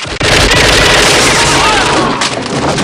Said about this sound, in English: Rambo fires on guards as they enter the prison.